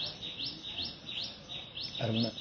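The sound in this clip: Birds call in a rapid series of bright, high chirps, each a quick rising sweep, repeating steadily throughout at moderate loudness.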